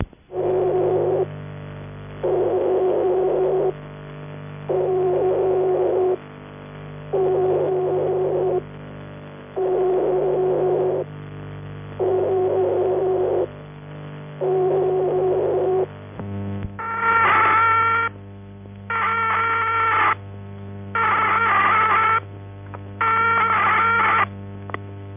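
Buzzy tone from a vibrator that is out of adjustment, keyed on and off in several evenly spaced bursts. Partway through it gives way to a harsher, rougher series of four bursts.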